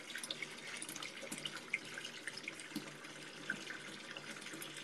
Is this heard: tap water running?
yes